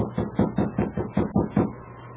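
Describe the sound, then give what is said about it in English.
Knocking on a wooden cabin door: a steady, evenly spaced series of firm, hollow knocks, clear and alone. “Sergeant Preston, with King at his side, knocked on the door of Paul Hubbard's cabin.”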